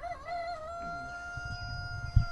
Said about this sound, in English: Mostly chickens in here? Yeah, we have English Orpingtons. We have Buff Orpingtons.